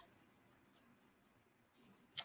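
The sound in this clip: Soft scratching of a pen writing on a pad of paper, faint and continuous with a slightly louder scrape near the end.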